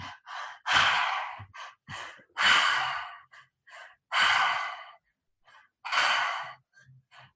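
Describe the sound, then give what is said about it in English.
Four forceful exhales in a breathwork exercise come at a steady pace, each a loud, rushing blast of breath about a second long. Short, quiet inhales and small breaths fall between them. “Nice, powerful exhales. Breathe in, receive in the air. Nice, powerful exhales.”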